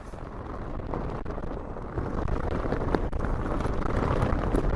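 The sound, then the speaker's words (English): Wind blows hard at the top of a climb, a loud, steady, low roar of gusts buffeting the microphone that grows a little stronger partway through, with no talk. “As you can probably hear, we've made it to the top of the first climb and it's a little bit breezy, to the point that we're only just on our feet.”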